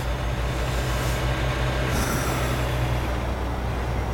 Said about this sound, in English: Alright, we're driving along. Approaching some kind of town.